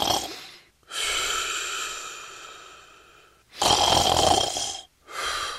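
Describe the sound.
Loud snoring from someone asleep: slow, rasping, drawn-out breaths repeating in a few long cycles with short pauses between, heard alone.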